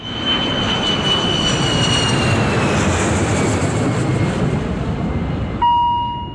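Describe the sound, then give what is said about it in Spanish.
Jet engines of a Boeing airliner roar during takeoff: a loud, steady rumble with a thin high whine that drifts slowly downward, and no voices over it. “2 de la mañana en punto, despega el Boeing 630 de nuestra casa.”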